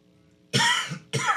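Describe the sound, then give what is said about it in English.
A person coughs twice: two harsh, rough bursts, the first longer and the second shorter, each standing alone against near silence. “Somebody got me coughing today.”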